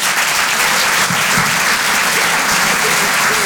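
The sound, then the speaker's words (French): Live audience applause for a comedian taking the stage at a comedy show in a Paris theatre: dense, loud, continuous clapping that holds steady throughout. “Je vous demande de l'encourager, s'il vous plaît, faites du bruit pour Rémi Boy.”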